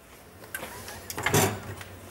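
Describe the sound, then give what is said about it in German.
A box is opened with a small hook, giving a few soft clicks, taps and scrapes. The sounds are faint and irregular, with a slightly louder cluster near the end. “Und dann machen wir den Kasten auf.”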